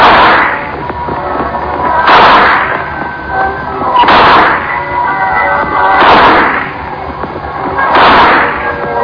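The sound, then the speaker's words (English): Five gunshots at a fairground shooting gallery, evenly spaced about two seconds apart. Each is a loud crack with a lingering tail. “There you are. Hey, that's good shooting. You must have been in the army or something. You really knocked him down.”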